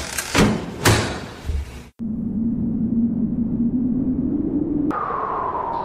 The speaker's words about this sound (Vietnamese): rồi xịt một tiếng, hai cánh cửa phòng hồ sơ mở ra.